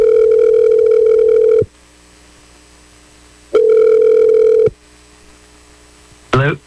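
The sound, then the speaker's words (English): A telephone call rings on the line: two long, steady electronic ring tones, each about a second and a half, separated by a silent pause, then a brief voice-like sound at the end. “I'm going to dial him right now.”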